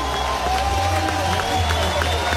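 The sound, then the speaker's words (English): A baseball crowd cheers a pitching change during a win-or-go-home game: a steady, moderately loud crowd roar that holds evenly over a low continuous hum. “Crowd loves it.”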